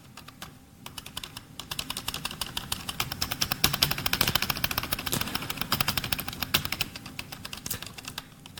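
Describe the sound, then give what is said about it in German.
Rapid typing on a computer keyboard to enter commands in a text adventure game, a dense stream of sharp key clicks that builds after a brief quiet start and continues steadily, with no talk. “Ich warte mal, ich müsste dafür einen Zahlenwert tippen. Wenn ich jetzt 1 tippe, dann laufe ich.”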